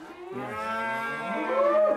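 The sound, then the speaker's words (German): Galloway cattle mooing in a stable: one sustained, low, resonant moo lasting about two seconds, loud and steady with a rich tone, heard alone without voices. “Aufregung im Galloway-Stall. Ein Teil der Herde geht heute auf die Reise.”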